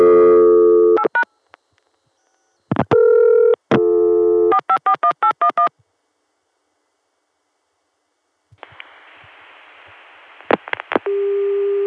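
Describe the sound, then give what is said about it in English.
Touch-tone telephone keys are dialed over a long-distance connection, sounding in several loud bursts and a quick run of short beeps, followed by silence, then a hissing line and a few more tones ending on a steady tone. “Let's hit a few touch tones just to see how this connection echoes and such”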